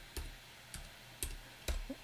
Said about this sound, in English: let me type this in.